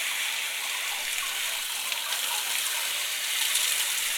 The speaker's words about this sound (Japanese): まずは髪の毛を濡らしていきますね。